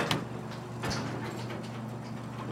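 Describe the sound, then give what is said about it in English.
An elevator coming to a stop on one of the upper floors of a building: a steady low mechanical hum runs throughout, with a sharp clunk near the start and another heavier knock about a second later. “The elevator came to a stop.”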